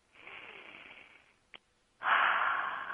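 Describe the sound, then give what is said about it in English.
A deep breath taken during a guided meditation: a soft, breathy rush of air, a brief click, then a louder, fuller rush of breath that trails off slowly. “Close your eyes, and let's all take a couple of deep breaths to clear our energy field.”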